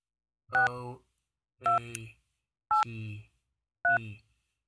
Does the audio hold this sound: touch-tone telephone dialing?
yes